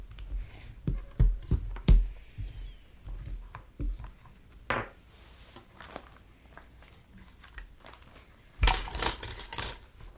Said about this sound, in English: I'm making dashes on my fish. Okay. It's looking good. It's cutting it.